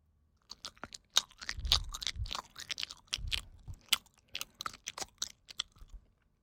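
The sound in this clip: Someone chews a mouthful of natto on rice close up, making many quiet, irregular wet smacking and sticky mouth sounds with brief pauses.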